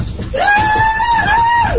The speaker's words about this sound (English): Now they're screaming. Now they're squealing.